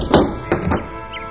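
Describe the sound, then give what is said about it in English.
Door being opened, heard as a few dull wooden thunks close together, then quiet. “I'll get the door.”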